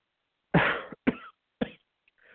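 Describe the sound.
A person coughs three times, each a harsh, sharp burst that fades quickly, spaced about half a second apart, followed by a faint breathy rustle.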